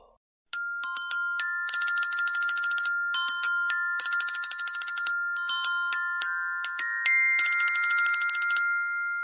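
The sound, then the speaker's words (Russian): Invisible icy bells chime as a massive armory door unlocks with a platinum key, many bright, high ringing tones struck in quick irregular bursts, each note ringing on, heard alone without voices. “Пропели невидимые ледяные колокола.”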